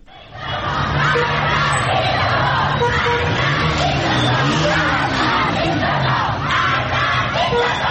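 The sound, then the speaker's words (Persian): A crowd of Iranian schoolgirls in Qom, protesting the death of Mahsa Amini, chants anti-government slogans together, a loud, sustained mass of young voices rising and falling in unison. “شمار از دختران در قم چادرهایشان را در دست گرفتند و شعار مرگ به دیکتاتور سر دادند.”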